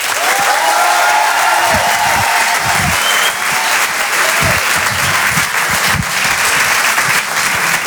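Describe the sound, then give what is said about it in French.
Loud, sustained applause from a live comedy show audience: dense, steady clapping that fills the whole stretch without letting up. “Je vous demande de faire un maximum de bruit, s'il vous plaît, pour Tristan Lucas.”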